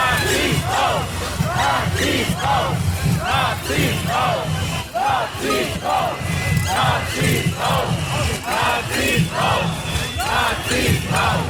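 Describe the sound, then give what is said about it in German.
Outside a town hall, a crowd loudly jeers and shouts as an AfD figure enters. The noise comes in steady, rhythmic vocal bursts over a constant dense roar of voices. “Es wird lautstark gebuht. Anscheinend irgendeiner der AfD-Prominenz betritt die Stadthalle.”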